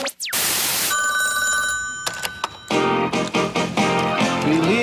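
A telephone rings on a call to an answering machine. A loud, bright ringing with steady tones gives way to a run of rapid clicks and then a dense, musical-sounding passage.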